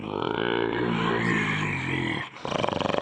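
A wolf prowling near a flock gives a rough, rumbling growl that runs unbroken for nearly three seconds. The tone wavers in pitch, then breaks into a pulsing, throaty snarl at the end.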